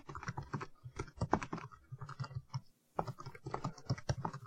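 Faint typing on a computer keyboard during formatting work, with quick, irregular bursts of key clicks and a short pause partway through.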